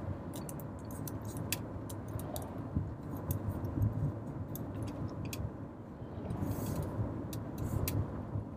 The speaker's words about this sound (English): I want to apologize for any, background noise that is being heard, really. Is the car the best place to podcast?